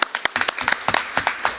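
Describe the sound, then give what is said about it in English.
An audience at a meeting gives a short round of clapping on request, many crisp individual claps landing in a quick, uneven patter, fairly loud and without any talk over them. “can I please request that we can all just have a little clap, please? May I ask that?”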